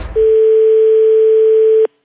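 A steady telephone dial tone after hanging up: one loud, unbroken single-pitched hum that starts suddenly, holds evenly for almost two seconds on its own, then cuts off abruptly.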